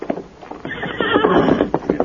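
Silver, the Lone Ranger's horse, gives a loud, shrill whinny in a Western radio drama, with clip-clopping hoofbeats before and after the neigh.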